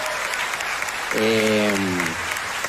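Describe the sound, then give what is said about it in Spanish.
Audience applause at a live concert, called for to honor the band members, a steady roar of clapping throughout, with a brief sustained tonal sound rising over it midway. “un aplauso, por favor, muy fuerte a Víctor Contreras y a Sergio Ramírez”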